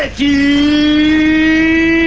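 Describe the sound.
Star Wars podracer engines roar at the start of a race. A loud, sustained, high whine with strong overtones kicks in after a brief dip and holds steady, creeping slightly upward in pitch.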